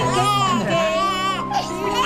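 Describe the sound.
A baby fusses and cries on waking, a continuous high, wavering wail with shifting pitch that rises and dips throughout and barely pauses.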